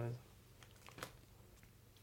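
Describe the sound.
A question card is drawn from a deck, giving a faint, brief papery rustle and a few soft clicks over a quiet background.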